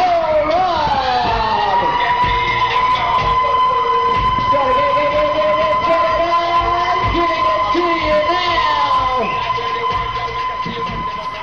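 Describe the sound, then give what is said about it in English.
A fairground ride siren at the CNE gives a loud, sustained wail that holds steady throughout, with a lower tone sweeping up and down beneath it and no break in volume. “There it is. That's that siren.”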